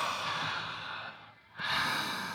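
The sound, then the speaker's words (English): Deep breathing in and out: soft, airy breaths that draw out, fade into a short near-silent pause, then return as another full, rushing breath. “Breathe in and breathe out. That's it.”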